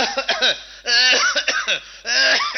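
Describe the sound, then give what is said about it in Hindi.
A voice imitates the cough of a man with a chronic coughing illness: a few loud, rasping, voiced hacking bursts, grouped into short runs with brief gaps between them. “कुछ इस तरह की खांसी।”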